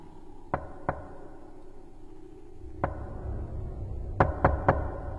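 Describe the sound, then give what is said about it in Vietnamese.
Knocking on a door: six sharp, fairly faint raps come in uneven groups, first a pair, then a single knock, then a quick run of three over a low background hum. “Tiếng gõ cửa bên kia vẫn cứ vang lên như đang thúc giục vậy.”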